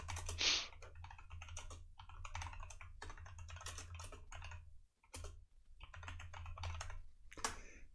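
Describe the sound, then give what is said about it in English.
Typing on a computer keyboard, with rapid bursts of crisp key clicks broken by short pauses, including a brief gap near the middle before the clatter resumes. “Sorry, I had to type some in real quick.”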